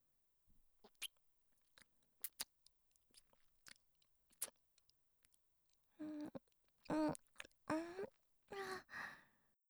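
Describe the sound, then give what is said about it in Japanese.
Soft kissing sounds right at the ear make many quiet, sharp, wet lip smacks in an irregular rhythm. Several louder breathy, voiced sighs follow. “耳弱いんですか？じゃあもっとチューしてあげますね。”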